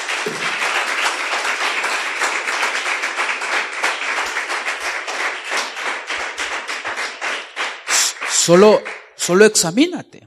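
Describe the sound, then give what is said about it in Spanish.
Congregation clapping for the Lord during a Spanish-language church sermon: many quick, sharp claps in a steady rhythm that gradually thin out, with voices breaking in near the end. “Dale un aplauso al Señor, hermano.”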